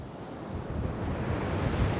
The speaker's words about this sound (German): Der Strand ist voll. In Aracaju im Nordosten von Brasilien herrscht bestes Badewetter, aber fast niemand wagt sich ins Wasser. Denn seit Tagen treibt die Brandung immer wieder Ölklumpen an den Strand.